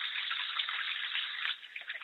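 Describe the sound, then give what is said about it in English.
Tap water runs steadily over hands being washed clean of peanut butter. It is an even, hissing stream that breaks off midway into a few scattered splashes and drips. “Wash my hands off here. I got a little on my hand.”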